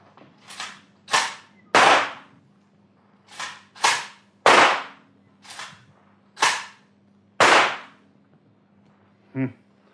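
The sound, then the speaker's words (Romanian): Gunshots fired at a target during a marksmanship contest ring out as nine sharp, loud cracks, each decaying quickly, spaced unevenly with brief pauses between groups, and no voices present. “Vom trage fiecare câte trei focuri de armă.”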